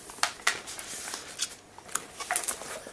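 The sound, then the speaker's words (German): Protective plastic film being peeled off a MacBook laptop it is fully wrapped in, giving soft, irregular crackles and brief crinkly ticks scattered over the few seconds. “Ich suche im Moment den Anfang wo ich die Folie entfernen kann.”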